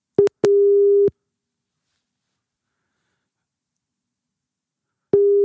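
A telephone ringing tone sounds during a call: a brief beep, then a longer steady mid-pitched tone, then a long silence before the tone starts again at the end.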